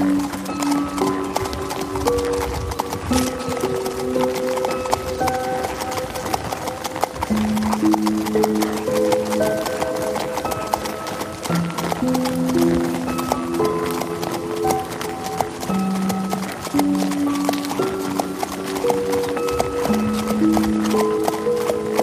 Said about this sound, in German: Schließlich neigt sich euer Familienausflug hoch zu Ross dem Ende zu. In der Ferne könnt ihr schon den Stall der Pferde erkennen